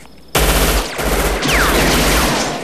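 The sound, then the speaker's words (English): Gunfire exchanged between two shooters, one behind a rock and one behind a monument: a loud, dense barrage of rapid shots that begins abruptly and continues almost without a break. “They exchange fire, Chico behind a rock, Scorpio behind the monument.”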